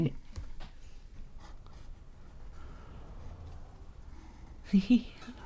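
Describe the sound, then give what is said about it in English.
Pen or pencil strokes scratch across paper as someone draws, making faint, steady rubbing sounds. Two short, louder breathy bursts stand out near the end. “Is there any chance you might be able to draw a podcast for us? Well, here are some ears.”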